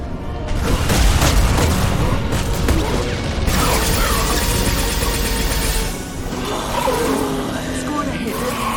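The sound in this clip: Gunfire in a video game rings out as dense, sustained volleys mixed with heavy booms, loud and continuous with almost no gaps.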